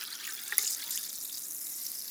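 Water is poured into a glass in a kitchen, a faint, steady, bright hissing splash that runs through the whole clip, with a brief small burst near the start.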